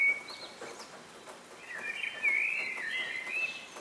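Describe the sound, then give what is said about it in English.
Birds sing in an early-morning dawn chorus, with thin, high chirps and twittering trills that become busier and slightly louder in the second half over a soft, hissy background. “This is the sound of a bird's dawn chorus. Birds sing out like this in the early hours of the morning to let everyone know that they've made it through the night.”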